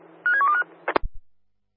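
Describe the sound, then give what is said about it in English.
Telephone keypad tones sound as a number is dialed: a quick, faint run of several beeps at shifting pitches, followed by a couple of short clicks and then silence. “Dialing now, thank you.”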